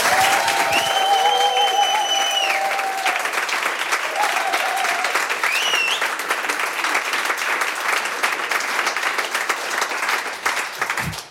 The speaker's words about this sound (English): Ich wünsche mir, dass sie ihr nochmal einen tosenden Applaus spendieren